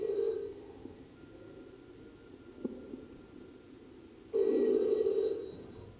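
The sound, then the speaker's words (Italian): A telephone rings twice, each ring a faint, buzzy electronic tone, the first brief and the second longer, separated by a few seconds of low, quiet hum. “Poco dopo Obo mi chiamò.”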